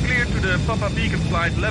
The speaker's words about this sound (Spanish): Pero antes de que termine su comunicación, el comandante suelta los frenos y comienza a despegar.